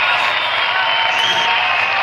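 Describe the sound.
Crowd cheering sound effect: a steady, dense roar of many voices that holds at an even loudness for about two seconds, with no break or swell.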